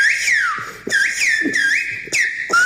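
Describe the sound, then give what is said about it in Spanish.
Silbo Gomero, the whistled language of La Gomera, rings out as a quick run of loud, piercing whistled phrases that slide in pitch, with short breaks between them and no talk. “Quien tenga el oído afinado habrá escuchado Radio Nacional de España. Efectivamente, en Silbo Gomero.”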